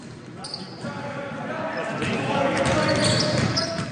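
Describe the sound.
A basketball bouncing, a few dull thumps spaced irregularly beneath a steady, fairly loud background hum.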